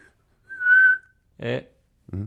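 A person whistles a single steady, high note, followed by two short voiced sounds.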